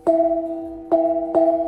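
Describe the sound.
A handheld 30 cm brass gong weighing 980 grams is struck three times, the last two blows close together. Each hit brings a bright attack and then a sustained, rich metallic hum that holds until the next strike.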